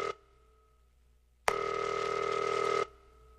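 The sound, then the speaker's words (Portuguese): Electronic telephone tones as a call is placed to a prize winner: a brief tone, a pause, then one steady, sustained ring tone of over a second that stops abruptly, with no talk. “Tamo ligando pra ela.”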